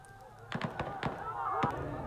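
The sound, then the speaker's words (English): Several sharp gunshot reports as police fire to disperse protesters against emergency rule in Khyber Pakhtunkhwa, Pakistan, cracking out irregularly in a quick cluster over a background of crowd voices. “Police firing shots to disperse people protesting the emergency rule in the northwestern province of Khyber Pakhtunkhwa.”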